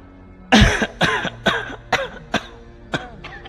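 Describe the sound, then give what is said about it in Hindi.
Repeated coughing from an old man: seven sharp, hacking bursts in an uneven rhythm, the first the loudest and longest, with no talk between them. “खांसी आई खांसी”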